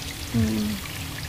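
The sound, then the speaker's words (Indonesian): Water flows from a mountain spring in Cikapundung with a soft, steady pouring rush that holds at a low level through the short stretch. “untuk mata air ini, airnya masih sangat bagus, kualitasnya juga masih sangat oke, dan ini memang masih sangat dijaga oleh masyarakat di sini”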